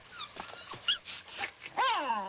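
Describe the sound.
A dog whimpers by the back door of a mill house, letting out several high, wavering whines and cries, the last louder and sliding downward in pitch.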